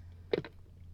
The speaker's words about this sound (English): let me have one more sip